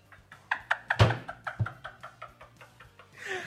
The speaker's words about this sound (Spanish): Ya deja de ah. golpear la mesa, pendejo. se están metiendo en los micrófonos